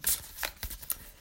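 Playing cards being shuffled until three cards drop out, heard as a quick, faint flutter of soft riffling snaps lasting about a second.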